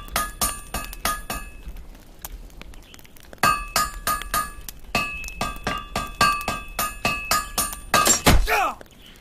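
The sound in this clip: Many sharp metallic clanks ring out as a hammer strikes metal to forge a blade in a video game. The strikes come in a fairly steady rhythm with bright ringing overtones and end in a heavier final burst.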